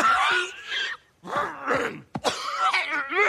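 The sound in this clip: Coughing and throat clearing from someone with something stuck in the throat: strained, voiced hacking and groaning in a few bursts, with a sharp cough near the middle.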